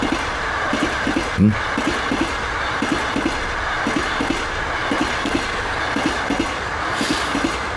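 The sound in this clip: A train running on rails, with a steady rumble and regular clickety-clack of wheels over rail joints repeating throughout, and one sharper thump early on.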